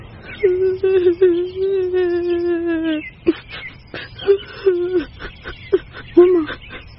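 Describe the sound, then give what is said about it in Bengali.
Muffled, suppressed crying: a long, drawn-out whimpering wail gives way to a string of short, choked sobs and catches of breath, fairly loud and with no other sound. “হঠাৎ এক চাপা কান্নার আওয়াজে দুজনই চমকে উঠল।”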